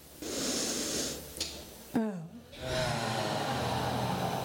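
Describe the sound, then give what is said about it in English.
Deep breathing during a group relaxation exercise: long, airy rushes of breath in and out, with a brief voiced catch between them, loud and steady. “3 deep breaths, my coco, in.”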